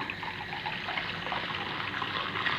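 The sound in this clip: Water poured into a glass, a steady trickling pour with no breaks and no talk.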